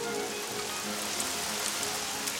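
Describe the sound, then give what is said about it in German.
Warm summer rain rustles on bushes and trees in a soft, steady hiss of countless drops. It stays even throughout, with no voices. “Lauer Regen. Sommerregen, rauscht von Büschen, rauscht von Bäumen.”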